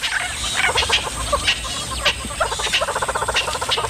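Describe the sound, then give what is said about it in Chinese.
Loud alarm calls from birds warning of a leopard: harsh, rapid chattering bursts repeat in quick series over a steady background hiss and grow denser toward the end. “这些鸟类对花豹满是戒备，只要看见花豹就会发出响亮的叫声提醒同伴。”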